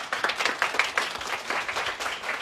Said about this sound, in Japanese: 皆さん大きな拍手